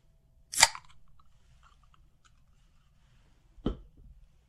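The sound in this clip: A can of Red Bull Summer Edition energy drink cracking open: two sharp, brief snaps separated by a few seconds of near silence, the first brighter and crisper.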